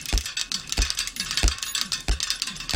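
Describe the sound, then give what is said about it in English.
Clattering mechanical ratchet clicks and gear rattles from bicycle parts rigged into a Rube Goldberg-style machine, with a heavier thump recurring at a steady, even beat and busy metallic ticking filling the gaps. “he created a short video using bicycle parts in front of a black background. And when I phrase it like that, it doesn't necessarily seem like there's much to it, but there is. You've probably never heard bicycles making sounds like these.”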